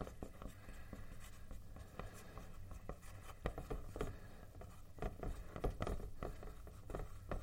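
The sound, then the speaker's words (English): Handwriting on a page: a steady, scratchy pen-on-paper rustle with many short strokes repeating in an uneven rhythm over a soft background hiss. “I'm going to write until I get to the end of this page.”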